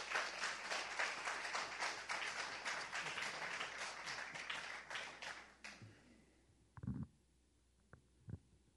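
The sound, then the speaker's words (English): Applause from an audience as a guest is welcomed onstage: dense, steady clapping for about six seconds that then stops, leaving a couple of faint knocks. “Come on, give him a big hand. Yeah, give him a big hand.”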